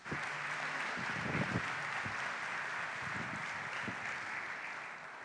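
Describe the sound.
A church audience applauds a guest speaker who is being welcomed to the pulpit, with steady, even clapping that stays fairly soft and continuous throughout.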